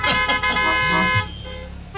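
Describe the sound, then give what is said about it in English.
A car horn blares loud and steady for about a second, then gives way to quieter background sound with a faint tone near the end. “I guess I should say, honk if you love Jesus.”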